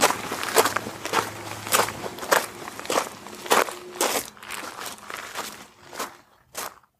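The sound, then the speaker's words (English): Footsteps walk on old stone steps in the grounds of a castle leading down toward an orangery: many crisp, crunchy treads in an uneven walking rhythm, each a sharp gritty scuff, moderately loud with no talk. “I'll just go for a little walk.”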